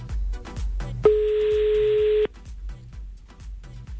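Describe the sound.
A single steady telephone tone sounds for just over a second while a number is being called, cutting off abruptly, with a faint rhythmic ticking in the background before and after.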